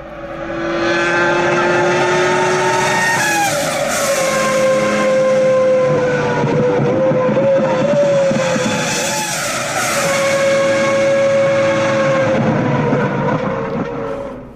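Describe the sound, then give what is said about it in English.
A car engine revs hard through a series of downshifts, its harmonic whine dropping in pitch at each shift and then climbing again. The loud, sustained tones carry on alone with no talking. “I love counting the downshifts.”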